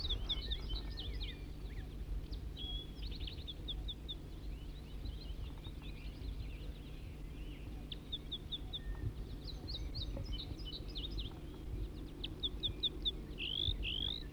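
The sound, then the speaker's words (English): A wild bird sings high, quick chirps and trills in repeated short phrases throughout, fairly faint over a steady low hum of background noise. “Start recording the wild bird now in song.”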